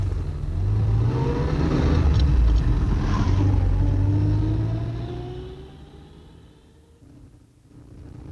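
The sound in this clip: Car engine pulling away as the driver sets off, a loud rumbling roar with engine tones climbing in pitch as it accelerates. The sound then fades, swelling slightly again at the end.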